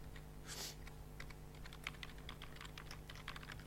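Keystrokes on a computer keyboard while three slashes are typed to start a code comment: a quick run of many light clicks over a steady low hum.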